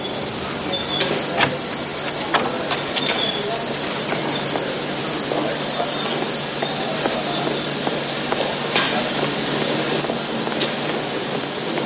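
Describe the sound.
A train at a station with a strong, steady rumble and a sustained high-pitched wheel squeal running through it. Brief sharp squeals and clatter rise above the rumble at a few points.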